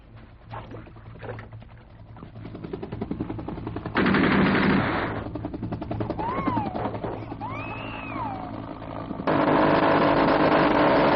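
Machine-gun fire in a Vietnam War film scene, heard as dense, loud bursts of rapid shots that swell into sustained stretches near the middle and again at the end.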